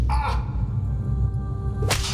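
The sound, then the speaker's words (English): A cane whips the soles of a man's bare feet, with two sharp, bright swishing strikes, one at the start and one at the end, over a steady low rumbling background. “Precisus comes forward and with a cane whips the bottom of Peter's feet.”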